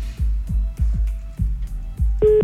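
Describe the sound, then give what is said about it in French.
Telephone redialing after a hung-up call: a series of soft, low thuds at uneven intervals, then a short buzzy tone at the very end. “Eh ben voilà, hop là, c'est raccroché, on rappelle.”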